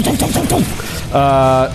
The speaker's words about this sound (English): It's called a squad machine gun. It's going to do some serious damage.